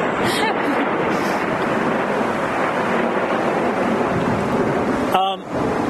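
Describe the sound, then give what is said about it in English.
Strong wind roars at sea during a powered boat race in tough weather, a loud, steady, dense rush that barely lets up for the whole stretch. “The weather has been really tough today. Now it's really blowing hard”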